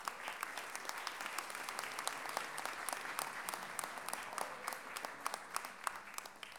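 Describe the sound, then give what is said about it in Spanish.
Audience applause at a launch event, dense steady clapping from many hands that stays fairly faint and even throughout. “Un aplauso para ustedes también.”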